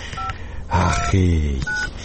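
Telephone keypad tones as a man dials his wife's number: a few short, steady two-pitch beeps separated by gaps.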